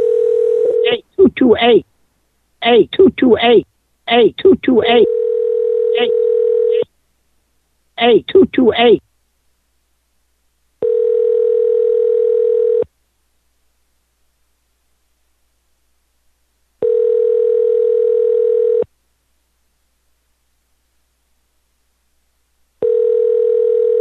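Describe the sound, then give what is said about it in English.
A telephone line tone: a steady, low, pure hum runs under bursts of talk, then sounds alone as three long beeps of about two seconds each, separated by silent gaps. “let's dial another number on Pran Funkles”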